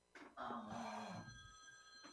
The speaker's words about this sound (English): My phone's ringing.